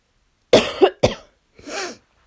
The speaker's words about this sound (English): sorry, I'm coughing away here, but I'm doing my best to get this across.